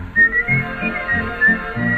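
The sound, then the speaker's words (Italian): A person whistles a tune while walking, a string of clear, bright, high notes over a pulsing low rhythmic backing. “L'altro dì, nel passeggiare, mi son messo a fischiettare”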